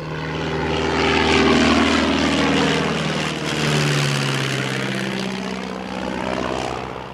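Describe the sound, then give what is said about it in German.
A small propeller airplane with short wings drones in flight, its engine a loud, steady hum with slightly wavering pitch that swells and eases gently, heard alone. “Der Probeflug verlief grandios. Das Flugzeug schwebte dahin wie geschmiert und Litti”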